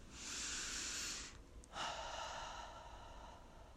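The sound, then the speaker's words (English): A single deep breath is taken alone. A long, airy inhale is followed by a brief pause, then a long, steady exhale of similar strength, with no voices. “It's time to take a deep breath right now.”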